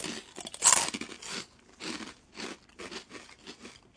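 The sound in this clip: Crisp crunching of anchovy rusks being eaten, hard and crunchy, opening with one loud bite and followed by many rhythmic crunchy chews of varying strength, with no talk.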